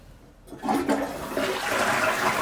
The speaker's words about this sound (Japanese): よし、じゃあ流してきますと。